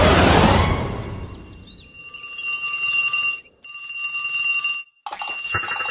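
A telephone rings in repeated electronic bursts with short breaks between them, bright and fairly loud. A brief noisy burst comes before the first ring.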